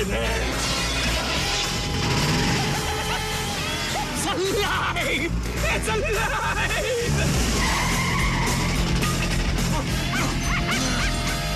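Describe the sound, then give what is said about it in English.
Tires skid and a car engine roars as a car with a smashed window speeds away, with a dog barking in a dense, loud, continuous mix that does not let up. “As Ace speeds away, the brute leaps onto the back and climbs through the smashed window.”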